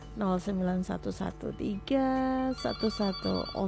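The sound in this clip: A telephone rings with an incoming listener's call on an evening call-in line, a melodic ringtone sounding in repeated pulsing phrases throughout.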